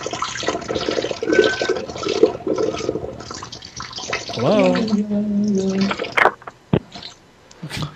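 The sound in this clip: A looping toilet flush plays from a soundboard, a loud, rushing swirl of water that gurgles and drains away, with a voice briefly speaking over it.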